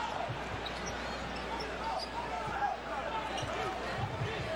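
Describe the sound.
A basketball dribbled on the court by Tobias Harris of the 76ers in an NBA game against the Raptors gives a steady run of repeated thuds over a continuous background hum.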